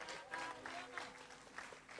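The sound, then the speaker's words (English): A church audience claps as a clap offering to the Lord, a faint patter of many hands in uneven bursts that swell and dip across the short stretch. “Give the Lord a clap offering.”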